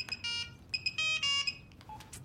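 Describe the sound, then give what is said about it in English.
A telephone rings with a bright electronic ringtone, short clusters of high warbling tones broken by brief gaps, fairly faint and alone. “She grins as the phone rings.”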